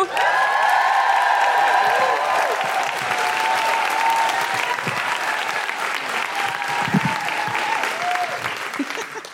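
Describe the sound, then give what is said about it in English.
An audience applauds and whoops to welcome a performer onto a stage. Loud, dense clapping is mixed with cheers and woos, holding steady and easing slightly toward the end. “Please welcome to the stage and make wonderful guilty feminist woohooing noises for Jessica Foster-Cue.”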